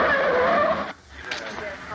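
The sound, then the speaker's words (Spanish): A convoy pulling away in a 1972 film scene, with a police car, an ambulance and other cars. A loud, roaring engine with tonal revving drops briefly near one second, then resumes. “Arrancan. Primero va un coche de la policía, luego el coche de Sony seguido por la ambulancia y finalmente otro coche con sus hombres.”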